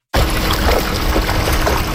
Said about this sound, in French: Des chercheurs utilisent un filet fin pour sortir de l'eau de jeunes saumons quina. Les saumons mesurent à peine quelques centimètres.